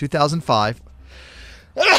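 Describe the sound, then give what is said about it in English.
A single sneeze, a breathy burst of noise under a second long that falls between stretches of talk. “Bless you. Oh, that sneeze.”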